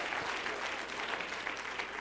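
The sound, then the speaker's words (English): Steady applause from a church audience during a worship service, many hands clapping at once in a dense, continuous patter that stays loud and even throughout. “Clap your hands.”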